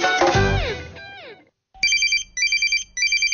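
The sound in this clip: A telephone rings electronically in a radio advertisement, sounding three bursts of bright trilling rings with short gaps between them, the last one cut off. Before the rings comes a brief passage of falling electronic tones.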